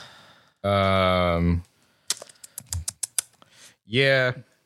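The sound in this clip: Quick keystrokes on a computer keyboard as a timestamp is noted: a short run of sharp, irregular clicks set between two brief stretches of voice.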